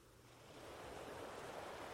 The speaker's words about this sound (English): listening to the sounds of the water, the waves washing gently onto the shore